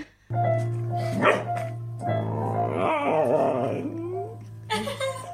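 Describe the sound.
A female dog vocalizes in wavering, drawn-out howls over steady low sustained tones, with brief louder bursts near the start and again near the end.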